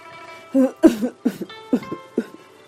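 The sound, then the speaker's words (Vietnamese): A man coughs in a series of short, dry bursts, several coughs in quick, uneven succession, fairly loud and with no talk. “Mộ Đồ Tô ho khan hai tiếng tỉnh lại.”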